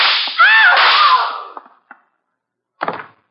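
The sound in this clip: A gunshot sounds as a sharp, loud blast with a whining, ricochet-like ring that fades over about a second and a half. A few faint clicks follow, then a second short, rough burst.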